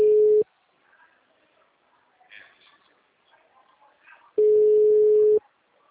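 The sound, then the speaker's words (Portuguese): Telephone ringback tone of a call that goes unanswered: two steady, low beeps, a short one at the start and a longer one near the end, separated by a quiet stretch with faint background noise. “Tá chamando? Tá atendendo? Não, tá chamando, mas não tá atendendo.”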